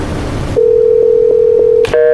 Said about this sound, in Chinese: 就光听着这个电话忙音了。